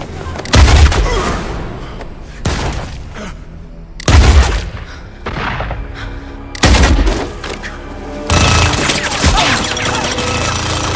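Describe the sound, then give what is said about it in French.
Heavy weapon fire aimed at a fortress wall: five loud, booming blasts spaced a couple of seconds apart, each trailing into rumbling noise, the last giving way to a sustained roar. “La température n'est pas stabilisée! Préparez-vous à tirer! Séquence de tir amorcée.”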